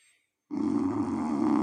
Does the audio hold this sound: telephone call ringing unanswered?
no

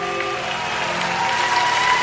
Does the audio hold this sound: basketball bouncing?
no

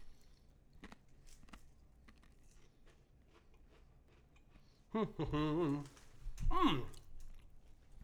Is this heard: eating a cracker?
yes

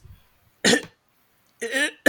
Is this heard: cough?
yes

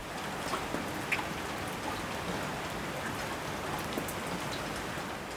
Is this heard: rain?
yes

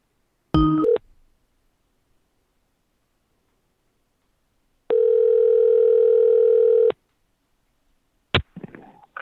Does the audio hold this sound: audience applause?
no

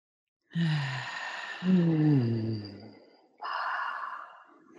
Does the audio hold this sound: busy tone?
no

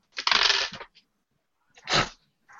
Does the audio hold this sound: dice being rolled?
yes

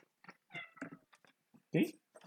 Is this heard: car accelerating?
no

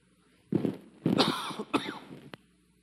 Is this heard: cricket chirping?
no

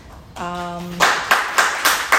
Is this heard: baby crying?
no

